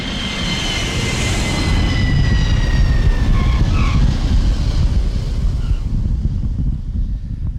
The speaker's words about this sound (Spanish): estamos aterrizando en la isla de Pascua